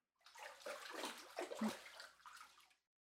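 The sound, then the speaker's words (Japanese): Water splashes and sloshes as someone rinses their body in a bath, in a few soft surging pours that rise and fall, faint and without voices. “体流して上がりましょう。”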